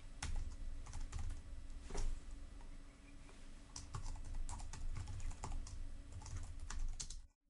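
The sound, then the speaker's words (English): Code is typed on a computer keyboard: a rapid, irregular stream of light key clicks with occasional heavier taps, fairly faint and continuous, briefly slowing near the middle before ending abruptly. “just go right here underneath this text, this code that says constructor. And I'm going to type in the following.”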